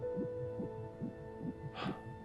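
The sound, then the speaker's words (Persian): An unborn baby's heartbeat comes through as faint, rapid, rhythmic whooshing pulses, many in quick succession, over a steady low hum, with a brief hiss of noise near the end. “الان بهتون نشون میدم. این ضربان قلب بچه است.”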